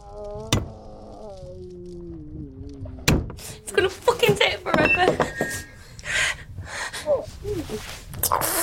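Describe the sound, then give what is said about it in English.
Sharp blows struck against an unbroken glass window: two prominent cracking impacts early on, then a busy run of knocks mixed with breathy gasps and grunting vocal noises. “continues striking the glass window.”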